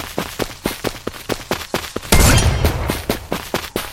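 Rapid gunfire in a shooting video game where thrown coconuts are shot, a quick, regular string of sharp shots with a heavier crashing burst partway through before the steady firing resumes.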